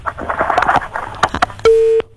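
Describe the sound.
A telephone tone sounds after a caller's line drops: scattered crackling and faint clatter, then a single steady, mid-pitched beep that holds briefly and cuts off.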